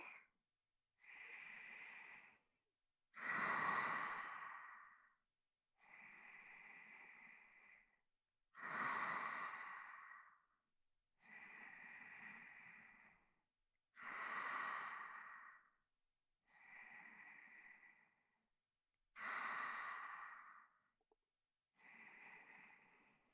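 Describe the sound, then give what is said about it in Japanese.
Slow guided breathing, deep breaths in and out with quiet pauses between, about five full cycles of alternating softer and stronger, breathy airflow. “吐いて、吸って、吐いて、一緒にしましょうね。”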